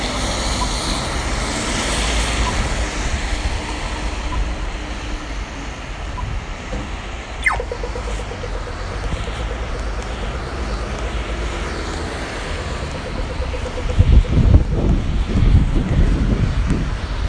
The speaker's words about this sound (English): You can hear the wet road.